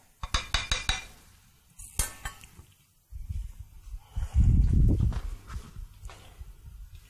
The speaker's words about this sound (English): You start stirring. And what I do now is I'm going to stir a while and then I'm going to leave and then come back.